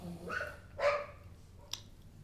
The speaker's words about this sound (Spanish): Perros toreando por todos lados.